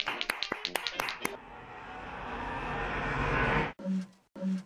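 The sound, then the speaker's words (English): Audience applause greeting a guest: a quick run of distinct, separate claps swells into a dense, rising wash of clapping that cuts off abruptly, followed by a brief voice. “Let's give a hand for Tom Sullivan.”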